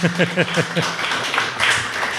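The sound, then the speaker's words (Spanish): An audience applauds at an international games festival in Córdoba. A voice speaks over the opening, then a steady patter of clapping continues to the end. “Y bueno, sí, se puede aplaudir otra vez, hombre.”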